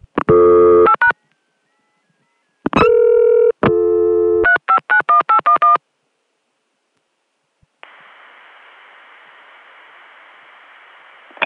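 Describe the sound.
Telephone digits dialed, then the call abruptly cuts through to a seemingly random number: a few long tone bursts, then a rapid run of short beeps, a silent pause, and finally a steady hissing line tone.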